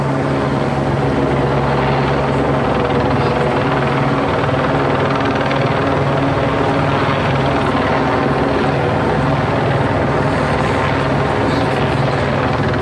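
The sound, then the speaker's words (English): Police and news helicopters circle overhead at Echo Park Lake, a loud, continuous rotor and engine drone that stays steady throughout. “then it's the sound of the police helicopters and the media helicopters, which is just this sort of totalitarian sound”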